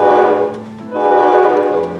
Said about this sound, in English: Can you honk the horn, Miss Engineer, ma'am?